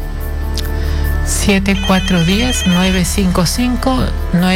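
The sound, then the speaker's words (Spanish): A telephone rings for an incoming call, a bright electronic ringtone that starts as a steady high tone and then turns into busier, warbling sounds layered over it. “Tenemos la llamada.”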